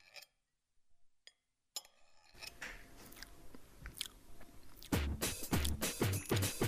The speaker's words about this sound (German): jetzt genieße ich erstmal meinen Saibling. Der duftet ja schon die ganze Zeit hier vor mir, ist schön angerichtet und jetzt wird es wirklich Zeit, dass ich das auch mal probiere.